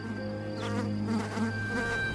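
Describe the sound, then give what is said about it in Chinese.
Honeybees buzzing among flowering goji berry plants where farmers keep bees, a steady, continuous droning hum with no voices. “为此，农民们专门养起了蜜蜂，在收获枸杞之余，还多了一点甜蜜。”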